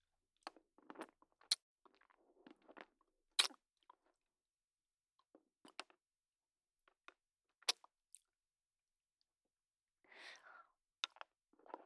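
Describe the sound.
Crunchy chewing of a limited-edition flavour snack: several bites break into sharp crunches and clicks, separated by quiet pauses, with a softer stretch of munching near the end and no talk.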